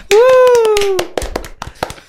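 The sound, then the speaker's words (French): A small group claps for a player's score during a points game. Scattered sharp hand claps ring out under a drawn-out vocal cheer and continue as a few uneven claps after it fades. “Bravo. Ouais! On peut l'applaudir.”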